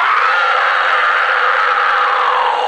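A person screams as a demonstration: one long, loud, unbroken cry that holds a steady high pitch from start to finish.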